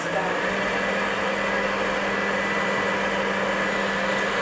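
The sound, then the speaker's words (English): An electric mixer creams sugar, shortening and eggs at medium-high speed, its motor giving a steady, even whir with a low hum that holds unchanged throughout. “And now I'm at my mixer, and the first thing is you have to cream your sugar, your shortening, and the eggs, which I'm going to do now. And medium high, I think, should do this.”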